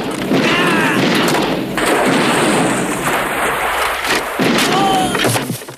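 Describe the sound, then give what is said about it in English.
Shotgun blasts during a fight scene in an action film, a few heavy booming shots spaced seconds apart over dense, rumbling noise. “A scuffle breaks out. Rambo grabs a shotgun and opens fire.”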